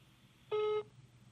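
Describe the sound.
A single short telephone tone sounds while a call is being placed to someone. It is one steady, mid-pitched beep, clear and alone over a faint low background hum.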